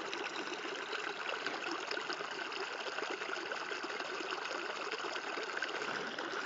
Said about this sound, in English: I guess the sound of water that runs like that